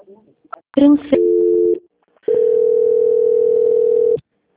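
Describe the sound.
Telephone line tones play while a call is being transferred: a short steady two-note tone is followed, after a pause, by a longer single steady tone of about two seconds, fairly loud and clean.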